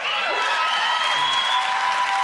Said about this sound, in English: Yeah, it's the whooping and the cheering that really gives me the chills.